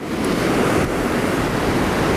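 Strong wind gusts blow outdoors in Liepāja, producing a loud, steady roar with deep buffeting rumble across the microphone and no voices.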